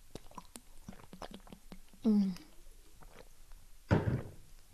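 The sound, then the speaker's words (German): Someone takes a sip of a drink, with soft wet mouth clicks and swallowing sounds. Two short, louder bursts stand out among the faint noises. “Und ich muss noch kurz einen Schluck trinken.”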